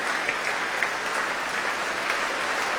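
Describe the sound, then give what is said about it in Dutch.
Audience applause after a symphony performance at a concert in Amsterdam: dense, steady clapping from many hands that keeps an even level throughout, without pause. “groot applaus ook voor de trombones.”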